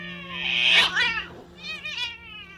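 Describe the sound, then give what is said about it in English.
Cats fighting on a balcony at night: loud, drawn-out yowls and caterwauling with a wavering, warbling pitch. A harsh, strained cry is followed by quieter, rippling wails. “in the middle of the night, I heard some cat fighting on the balcony.”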